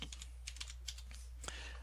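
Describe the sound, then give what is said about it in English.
Typing on a computer keyboard: many quick, soft key clicks in an irregular rhythm, faint, over a steady low hum. “and I haven't typed that correctly”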